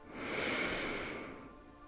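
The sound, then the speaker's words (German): A single deep inhale drawn through the nose: a soft, breathy rush of air that swells over the first half-second, holds steady, then gradually thins out as the breath tapers off. “Durch die Nase einatmen”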